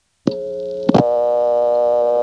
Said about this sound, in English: And the first thing I want to do is call back to Marshfield, where we just were, and dial a vacant level. And seemingly miraculously, this time, intercept actually works correctly.